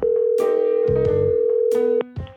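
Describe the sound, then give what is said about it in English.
On an outgoing telephone call, a steady ringback tone buzzes without a break for about two seconds and then cuts off. Other brief sounds overlap it. “So I phone up the person in charge to ask.”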